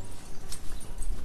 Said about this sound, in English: That's the sound of a forest farm in Milton, West Virginia, where Bob Maslowski is growing shiitake mushrooms.